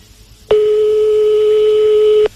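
One ringing tone on a telephone call: a single steady, buzzy mid-pitched tone lasting under two seconds, loud and even, starting and stopping abruptly against a quiet background.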